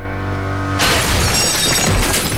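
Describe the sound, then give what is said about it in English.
Glass panel wall shattering as a body crashes through it: a sudden loud burst of breaking glass that continues as a dense, sustained crash of scattering shards to the end. “Sasha hurls himself through a glass panel wall”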